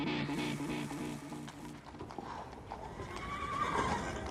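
A horse gives a long, harmonic neigh that trails off, followed by a muddle of clip-clopping hooves and rustling at a betting gathering.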